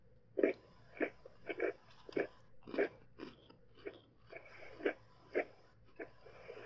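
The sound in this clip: Crunchy gingerbread-flavoured cookies being bitten and chewed: many short, faint crisp crunches in an uneven steady rhythm, with quiet pauses between bites.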